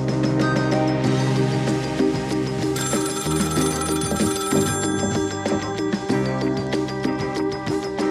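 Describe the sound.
A telephone rings continuously and loudly through the whole stretch, its dense bell tone unbroken and with no one talking over it.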